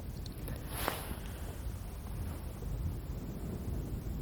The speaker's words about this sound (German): Ist gerade schwer zu sagen, weil auch ein bisschen Wind ist.